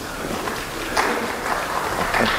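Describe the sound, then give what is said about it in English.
A church audience breaks into applause, producing a dense, even patter of clapping that holds steady throughout. “Proud grandma's back there applauding”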